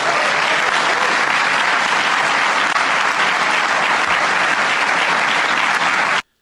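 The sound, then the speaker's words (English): Thunderous applause after a Canadian political speech about rising food prices and grocers, a dense, continuous roar of many clapping hands at an even, loud level that cuts off abruptly at the end. “now, what you're hearing applause, it's like, is that the Star Wars line? So is this how democracy dies, with thunderous applause?”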